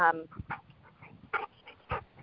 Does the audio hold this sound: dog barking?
yes

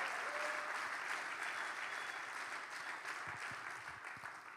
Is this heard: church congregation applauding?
yes

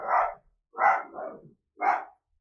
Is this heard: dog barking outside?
yes

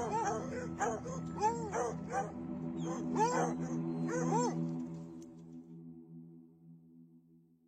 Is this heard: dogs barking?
yes

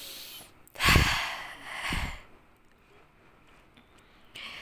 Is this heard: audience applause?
no

